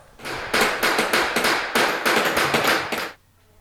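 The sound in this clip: Hammer striking coins on a bronze die at a coin-minting workshop, a rapid series of many sharp, loud blows in quick succession that stops abruptly.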